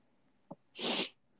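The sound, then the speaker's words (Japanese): A single quiet sneeze, with a brief sharp intake of breath just before the burst. “くしゃみ助かる、大丈夫。”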